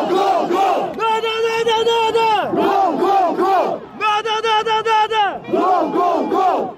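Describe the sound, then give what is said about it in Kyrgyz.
Football ultras chant in unison in a stadium, a large crowd alternating rhythmic, clipped syllable chants with long sustained shouts, loud and rousing throughout. “Ультрастардын арасында отуруу футболго болгон кызыгууну арттырат. Алардын деми менен калган көрүүчүлөр да кол чаап, колдоп башташат.”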